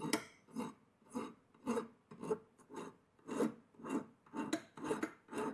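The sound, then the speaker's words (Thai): A hand file rasps across metal in forward-only strokes. Gritty, faint scrapes come one after another at a steady rhythm of about two per second, with short pauses between them and no talk. “หลักการตะไบนะครับเราใช้วิธีการถูไปด้านหน้าอย่างเดียวนะครับ”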